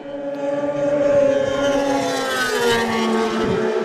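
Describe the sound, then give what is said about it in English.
Two racing sidecar outfits pass side by side on Glencrutchery Road, their engines giving a loud, sustained roar. The layered harmonic tones shift slightly in pitch as the machines go by together, with no talking. “The two outfits appear onto Glencrutchery Road now. Line astern, literally right together as we're about to get them.”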